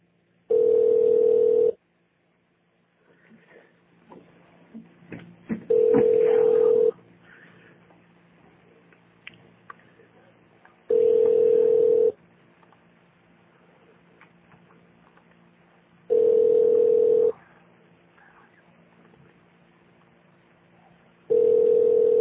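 Ringing tones on a telephone line during a call to an automated extension menu. Mid-pitched tone bursts about a second long repeat roughly every five seconds, with faint line hiss between them and the last burst cut short.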